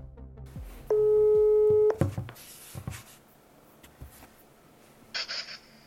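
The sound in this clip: A telephone tone sounds while someone phones their mother: one steady, even tone lasting about a second, followed by faint clicks, rustling and a short burst of higher noise.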